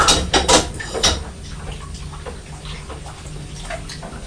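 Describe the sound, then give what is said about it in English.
Pots being washed up in water: a few sharp clinks of dishes at the start, then steady splashing and sloshing at a moderate level. “There we are, we've washed up the pots.”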